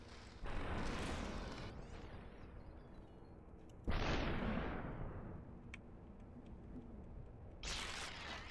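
Gunfire in a video game: three loud, sharp bursts spaced a few seconds apart, each hitting hard and then trailing off into a noisy, decaying tail.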